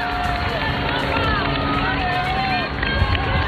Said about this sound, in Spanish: Son los sonidos, algunos de los sonidos que nos está dejando la mañana de esta primera visita de un pontífice a nuestro país por primera vez en 15 años.